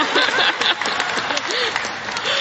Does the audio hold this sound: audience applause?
yes